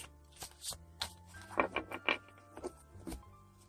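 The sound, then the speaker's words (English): Cards are shuffled by hand before a horoscope reading, making a soft, papery patter of quick, irregular flicks and rustles. It is faint, and no one speaks. “let's just mix these cards up and uh, I use the cards to just give me some extra insight into what I'm seeing.”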